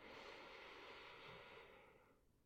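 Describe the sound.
A slow, soft breath is drawn in during a guided breathing exercise that paces inhales and exhales with alternating foot steps. The faint, airy rush holds steady, then tapers away over about two seconds.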